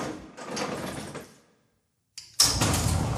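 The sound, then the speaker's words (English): A manual garage door is rolled up by hand with a rattling, scraping rush that fades out. After a short silence, a sharp clack is followed by another loud rolling burst. “Oh, let mom in. Gotta open it. I gotta roll up the manual garage.”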